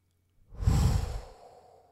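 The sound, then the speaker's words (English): A deliberate breath blown straight into a microphone: one loud, airy rush that swells quickly, holds, then trails off slowly into quiet. No voices are heard around it. “I'm going to inhale for a bit and then exhale. Let me get an inhale.”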